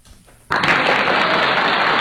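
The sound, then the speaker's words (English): An applause sound effect rewards a correct answer in a guess-the-creature quiz. It bursts in abruptly after half a second of quiet and holds as steady, loud, dense clapping. “So you got the applause.”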